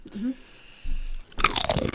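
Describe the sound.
Someone bites into and chews a cheese-flavoured food, giving loud, crisp crunches in a rapid irregular series after a quieter stretch.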